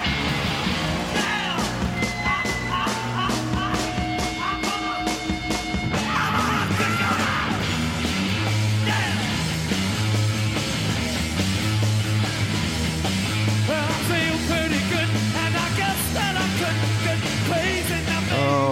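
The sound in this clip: An edited rock song intro blasts with twin electric guitars and pounding drums in a loud, dense, driving wall of sound, with shouting voices riding over it the whole way.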